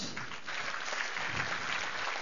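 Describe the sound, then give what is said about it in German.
Applause: a dense, even wash of clapping that fills the whole clip at steady loudness. “Okay, Applaus.”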